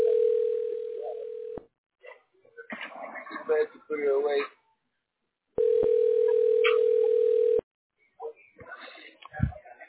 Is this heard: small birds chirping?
no